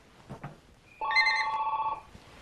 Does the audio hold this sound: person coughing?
no